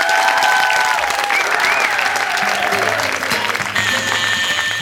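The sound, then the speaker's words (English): Audience applause at the 1993 Melbourne Comedy Festival as the cast is applauded: dense, continuous clapping that holds loud and steady across the whole stretch. “And could we have a round of applause for their tops,”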